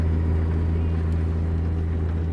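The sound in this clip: Steady engine hum of a truck in the video game American Truck Simulator, driving a two-lane road through Oregon with a trailer load; a loud, even, low drone with no change in pitch.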